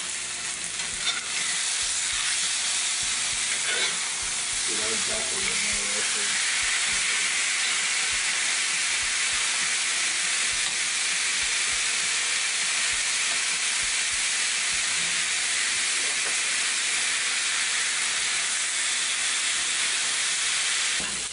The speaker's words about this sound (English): down first and try to render some of that, so we'll get a little bit of oil into the pan as a result. All right. So we got the skillet at a high temperature. I preheated it for about 5 or 6 minutes.